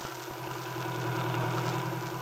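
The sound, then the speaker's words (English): A car driving along a country road, its engine giving a steady low drone with an even tonal hum and no change in pace. “Now, having accomplished this neighborly mission, the two were driving along Kenmore Hill Road on the way back to town.”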